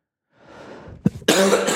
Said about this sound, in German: Und ich werde diesmal auch wieder Husten schneiden müssen.